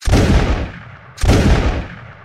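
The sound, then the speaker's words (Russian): Rifle gunfire in battle, aimed shots from riflemen using new bullets: two loud, sharp reports about a second apart, each followed by a long rumbling decay. “Вели прицельную стрельбу штуцерники. Новые пули, быстрая перезарядка.”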